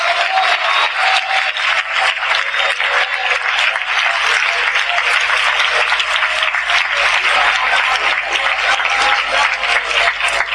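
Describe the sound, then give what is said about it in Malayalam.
Church audience clapping in praise to God during a worship service, a dense, sustained wash of hand claps that holds at steady loudness for about ten seconds. “അകത്ത് വെളിപ്പാട് കിട്ടിയ ആളുകൾ മാത്രം കൈയടിച്ച് ദൈവത്തിന് സ്തോത്രം ചെയ്യാ.”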